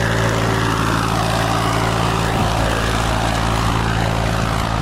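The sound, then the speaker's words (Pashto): A tractor ploughing a wide green field gives a steady, loud engine drone with a low, even hum that runs unbroken from start to finish, with no voices over it. “اسلام الدین په یو پراخ شنه ساحه کې په ټراکټر ځکه اړوي”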